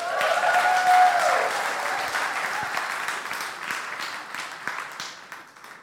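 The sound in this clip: Applause from a church audience welcoming a preacher to the stage at a morning service: dense, sustained clapping that starts loud and gradually thins and fades over several seconds.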